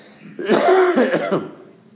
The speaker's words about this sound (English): And I hope you'll excuse me this morning if I stop ever so often to cough.